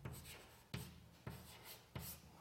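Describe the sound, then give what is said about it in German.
Quiet writing on a board while equations are worked through: four separate scratchy strokes, each starting sharply and then trailing off, at uneven intervals. “Da schreibe ich dann dieses Ortsargument in Kugelkoordinaten hin.”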